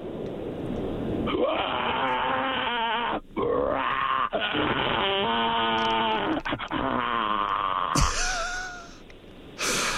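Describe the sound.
A person imitates the call of an Australian bustard with deep, drawn-out groaning grunts and bleat-like tones, several calls separated by brief pauses, ending in a higher burst of noise.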